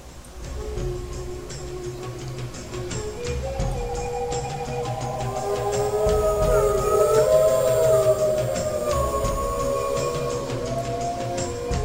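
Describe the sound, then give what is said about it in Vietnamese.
Wolf howling: long, wavering tonal howls that glide up and down in pitch, swelling louder toward the middle and holding steady to the end. “đại đa số mọi người, cho dù chưa từng gặp một con sói nào, cũng biết được đây là tiếng sói tru.”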